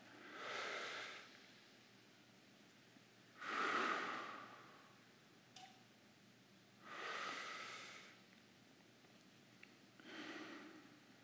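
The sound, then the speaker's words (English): Slow, deep breaths taken together during a guided breathing exercise at a retreat session. Several long, airy inhales and exhales rise and fade in a steady, unhurried rhythm with quiet pauses between them. “together, we're just gonna take five deep breaths”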